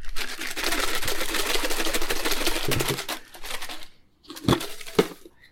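Prize drawing entries rattle and rustle as their container is shaken briskly for about three seconds, followed by a short pause and a few louder knocks and handling noises.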